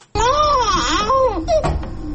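A malnourished young child in Afghanistan crying loudly, a wavering, sobbing wail whose pitch rises and falls in drawn-out arcs before breaking into shorter gasping cries.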